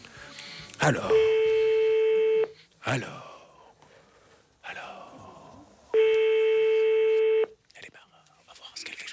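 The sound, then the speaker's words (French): Telephone ringing tone on a call placed by a young switchboard operator: two long, steady buzzing rings of about a second and a half each, separated by a pause with faint clicks and rustling. “Il est en train d'être composé actuellement par une jeune standardiste qui a fait le numéro. Et ça sonne dans une seconde, me dit-on.”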